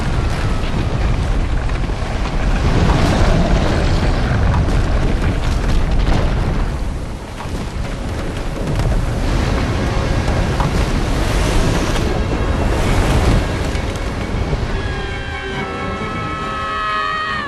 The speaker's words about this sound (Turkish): Buzulların çatlamasıyla çağlayarak akan sular sincabı sürüklüyor. Kayalar devriliyor.